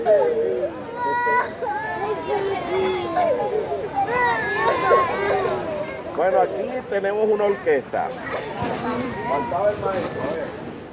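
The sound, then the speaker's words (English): Children wailing and crying for their parents inside a border detention facility, many overlapping high-pitched sobs and whimpers rising and falling continuously, mixed with talking voices. “It has not been verified from NPR, but is described as a recording from inside a border detention facility, and you can hear children here wailing for their parents”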